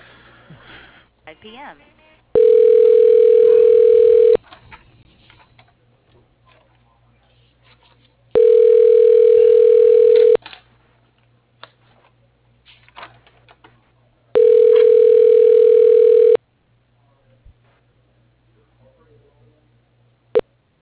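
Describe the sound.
Telephone ringback tone while a call is transferred: three loud, steady electronic tones, each about two seconds long, separated by roughly four-second gaps of near silence with faint background noise.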